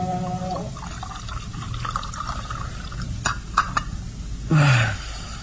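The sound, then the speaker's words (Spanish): Liquid is poured to refill a drinking goblet: a faint, steady trickle with small splashes and clinks. A short, louder gurgling swell comes near the end. “Bebe el resto de la copa de un sorbo y limpia sus labios con el dorso de la mano. Luego, vuelve a llenar la copa.”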